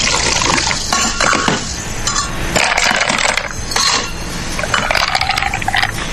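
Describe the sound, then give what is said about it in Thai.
Soda pours into a glass in a steady, bright, fizzing rush, with scattered glassy clinks throughout and no voices. “นี่เติมโซดา”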